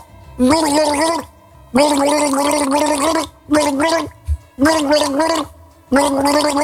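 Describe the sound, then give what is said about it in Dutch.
A person gargles a song's melody, the tune bubbling and wobbling through water in several loud sustained phrases broken by short pauses. “Ja, precies, want er werd gegorgeld en jij hebt meteen in de gaten gehad welke plaat het was.”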